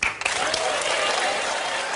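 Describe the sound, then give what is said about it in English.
A studio audience cheering and applauding during a talk segment on football crowds booing, a dense, steady wash of claps and cheers. “You can tell by the cheers from the studio audience that he's not the only one who thinks that.”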